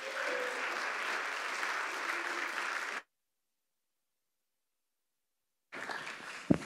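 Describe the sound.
A church audience at Pacific Baptist Church applauds to welcome a guest speaker, with steady clapping for about three seconds that cuts to silence and then resumes briefly.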